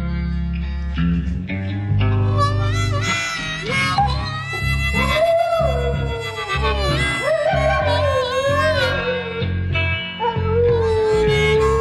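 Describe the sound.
A German shepherd howls along with a slow rock song, its long, wavering howls and whimpers rising and falling over sustained guitar and band accompaniment throughout.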